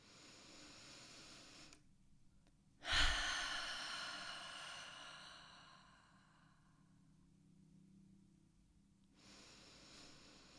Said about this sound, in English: we're going to start with three deep breaths in through the nose with an open mouth exhale.